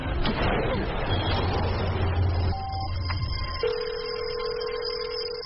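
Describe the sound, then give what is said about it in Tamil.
Telephone tones sound as a call is placed from a vehicle with poor signal. A rumbling, noisy stretch gives way to a short higher beep and then a longer, steady lower tone, with no talk. “நீங்க யாருக்கு phone பண்றீங்க?”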